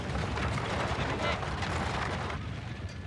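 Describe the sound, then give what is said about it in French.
A stagecoach arriving makes a loud, continuous rumbling clatter that holds strong, then thins and fades noticeably partway through. “Attention ! La diligence arrive.”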